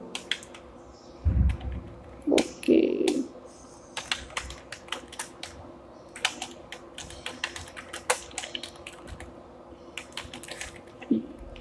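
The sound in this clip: Someone types on a computer keyboard, a dense, irregular patter of many light key clicks running throughout. A few heavier thumps stand out near the start, and no one speaks.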